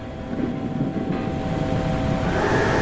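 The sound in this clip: Steady, loud drone of a rescue helicopter in flight: continuous engine and rotor rumble with a constant tonal hum, unbroken from start to end, no voices.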